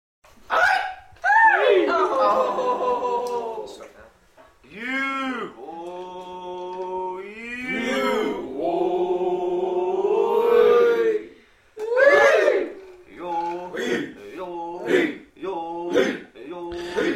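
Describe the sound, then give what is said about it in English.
Singing of a traditional Natchez Nation song at the annual powwow at the Grand Village in Natchez, Mississippi. A voice holds long notes that waver in pitch, set apart by short pauses. “We're listening to a traditional song from the Na'Chi Nation, which I recorded at the annual powwow held at the Grand Village in Natchez”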